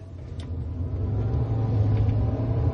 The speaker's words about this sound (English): You could kill us both driving like a bloody loony.